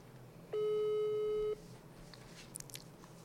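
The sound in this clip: A telephone tone heard while calling someone: one steady, mid-pitched beep lasting about a second, followed by near-silence with a few faint clicks.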